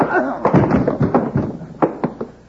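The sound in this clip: Fist punches landing during a fistfight: several sharp, dull thuds in quick succession, mixed in with men's voices.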